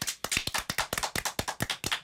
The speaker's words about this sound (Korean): 야 기가 막힙니다. 박수.